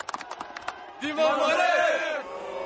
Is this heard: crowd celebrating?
yes